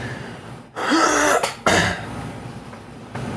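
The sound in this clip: Throat clearing to dislodge a clump in the throat: a longer rasping burst, then a second shorter one, both loud and alone, followed by quiet.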